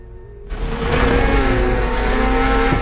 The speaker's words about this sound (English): He climbs on and speeds across the snow, wearing his white camo suit. His motor sled sprays snow into the air as he glides it down a steep hill.